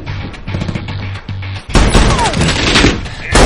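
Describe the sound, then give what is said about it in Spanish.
Gunfire in an action film scene around a bus, with a gunman behind a watermelon truck: a quieter tonal passage gives way to a sudden loud burst of shots and crashing that continues to the end. “Agachados dentro del autobús, Frank y Luis se defienden de los disparos. Un hombre armado se resguarda tras un camión de sandías y dispara a Frank.”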